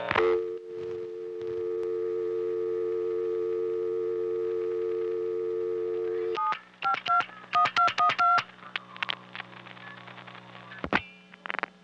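Telephone exchange sender outpulsing digits for a time-of-day announcement call to 752-1212, sending the digit 2 plus 1212: a steady two-tone hum holds for several seconds, then a rapid string of short multifrequency beeps follows, ending with faint clicks.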